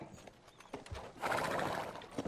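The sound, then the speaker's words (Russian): A horse-drawn cart pulls up and stops in front of a house. Faint clip-clopping hooves are followed by a brief horse whinny. “Повозка тормозит возле дома.”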